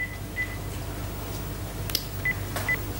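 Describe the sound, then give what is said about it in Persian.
Telephone number being dialed late at night, heard as a few short, faint keypad beeps over a steady low hum, with a brief click between them. “به کی زنگ میزنی این وقت شب؟”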